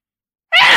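A single sudden sneeze bursts out after half a second of silence, loud and breathy with a voiced, strained edge.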